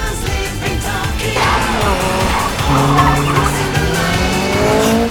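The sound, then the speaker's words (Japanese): Racing cars, a Toyota AE86 and a Mazda RX-7 FD, run hard along a winding road with tight bends, engines roaring with shifting pitch while tires squeal and skid continuously; the sound stays loud throughout and no one speaks. “旧式の86ごときをこの FD がちぎれないだと？”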